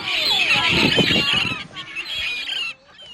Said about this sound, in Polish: A na Helu budzą go mewy, tak.